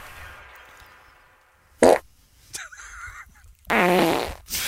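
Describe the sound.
Fart sounds: a short, loud burst, then a longer and buzzier one, with fainter, brief noises between them.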